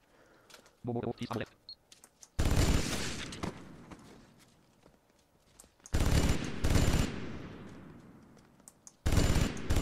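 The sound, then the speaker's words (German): Rapid minigun fire in a video game, from the Vulkan weapon, comes in three loud, dense bursts. The first is longest and trails off slowly, with quieter sounds between the bursts. “Das wird der Einsatz für die Vulkan. Minigun. Da schneller.”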